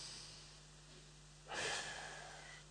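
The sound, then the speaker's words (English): A deep breath drawn in through the nose during a breathing exercise in a class: one short, breathy inhale that swells and fades over a steady background hum. “Okay, in through your nose, out through your mouth, in through your nose.”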